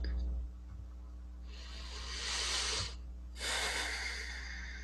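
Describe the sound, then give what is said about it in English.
A deep breath in and a long exhale during a guided heart-centered meditation: two soft, airy breath sounds, each lasting over a second, separated by a short pause, with no talking. “And take one more deep breath into your heart.”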